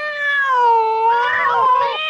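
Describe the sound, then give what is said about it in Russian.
Cat meowing and caterwauling: a single loud, drawn-out yowl with a bright, tonal voice that wavers and bends in pitch throughout, strained and whining toward the end. “в сад господина Элемейта и устроить там небольшой кошачий концерт”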